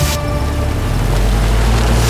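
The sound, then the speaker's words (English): Steady engine rumble of a military car carrying soldiers through a forest in the Ardennes, Belgium, in December 1944: a loud, continuous low drone with broad noise on top and no breaks. “Belgium, December 16th, 1944. Three American soldiers drive through a forest in the Ardennes.”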